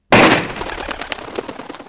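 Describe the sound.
A single loud gunshot fired while hunting in thick fog, with a sharp, sudden crack followed by a long, rolling, rumbling decay that fades unevenly.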